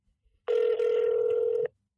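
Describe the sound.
A phone call rings out from a mobile phone: a single steady electronic ring tone sounds for about a second, alone, then cuts off into silence.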